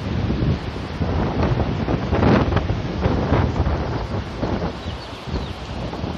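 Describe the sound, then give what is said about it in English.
Strong wind blowing in from the north, a heavy breeze that has risen from calm, roaring and buffeting steadily with gusty surges throughout and no voices. “Astonishing to come off from calm to heavy breeze. Not quite high wind, but it's getting there.”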